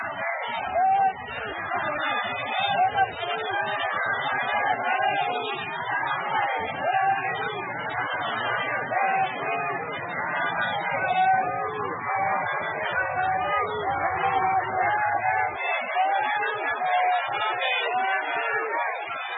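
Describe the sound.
Crowds of people, staff and students lining the road in Naypyidaw welcome Aung San Suu Kyi on her return from the ICJ, a continuous dense babble of many voices at a steady level throughout.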